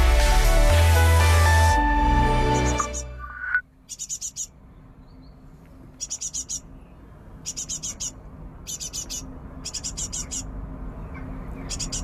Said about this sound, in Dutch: Irma Vogel uit Utrecht hoort de koolmeeskuikens in het nestkastje op haar balkon, maar de ouders roepen: rupsen en insecten hebben we nodig en snel wat.